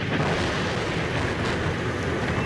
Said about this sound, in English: But the heavy rain and thunder that stormed the Roman skies